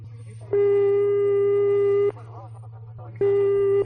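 Telephone ringback tone of an unanswered call: two long, steady electronic tones separated by a pause, over a constant low hum.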